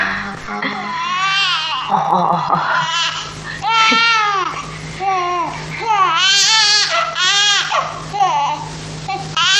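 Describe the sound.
A baby cries loudly in a Chinese-language drama, with repeated rising and falling wails broken by short whimpering, babbling sounds across several seconds.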